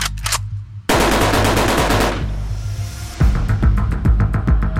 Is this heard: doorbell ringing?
no